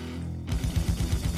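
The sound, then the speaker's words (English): A gun goes off with one abrupt, sharp crack that spreads across the whole range, followed by a rumbling run of low pulses. “Jeez. Jesus, it's really loud. Yeah, a gun went off.”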